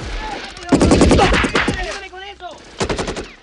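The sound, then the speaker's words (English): Soldiers at a villa and an automatic weapon firing from woods in a film shootout: a long rapid burst of loud shots, a short lull, then a second clipped volley of rapid fire. “He then turns his attention to the soldiers outside the villa and on the roof, who all begin shooting at him. From the cover of the woods, John rakes the area in front of him and the guards drop like skittles.”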